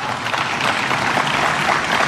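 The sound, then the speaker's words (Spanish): Applause for an education team at a public event in Chile, a continuous, evenly dense patter of clapping from an audience. “así que también un aplauso para el equipo de educación”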